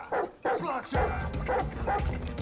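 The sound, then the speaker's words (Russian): A dog barks at an intruder inside a house, giving a few sharp, quick barks in succession, fairly loud over a voice talking in the background. “В дом забегает собака и лает на браконьера.”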